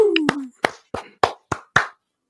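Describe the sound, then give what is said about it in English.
Six separate hand claps sound in a slow, even rhythm, each one crisp and distinct with brief silence between, a sparse round of applause from just a few hands. “Round of applause.”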